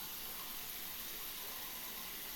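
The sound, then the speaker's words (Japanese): Water running to rinse someone off after washing, a soft, even hiss that flows without a break. “ではでは、しっかり洗えたので流しますね。”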